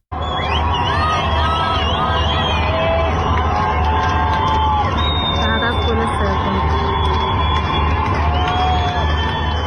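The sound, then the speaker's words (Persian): Loud crowd cheering after England's third goal in a football match, heard in Chitgar township, Tehran: dense continuous roar of many voices with shouts and whoops rising above it throughout. “صدای از یک شادی بعد از گل سوم انگلستان منتشر شده که مربوط به شهرک چیتگر تهران هست که هم صدای شادی از هم شعار مرگ بر دیکتاتور”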